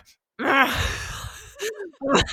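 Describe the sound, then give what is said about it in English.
A voice imitates the honking inhale stridor of laryngomalacia, like a goose: a strained, buzzy, harmonic-rich gasp held for about a second, followed by two shorter, rougher bursts. “But with laryngeal malacia, which is far more common than bronchomalacia, thank goodness, it's on the inhale. So they're like, or like,”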